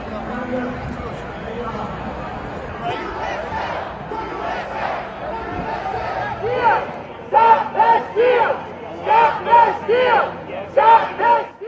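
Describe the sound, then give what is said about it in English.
Thousands of Trump supporters protest the presidential election results at the Million MAGA March in Washington, D.C. A loud, restless crowd roar shifts partway through into a run of rhythmic chanted shouts in unison, each burst separated by a short gap. “Now that was the sound of thousands of Trump supporters who were in D.C. this last Saturday protesting the results of the presidential election.”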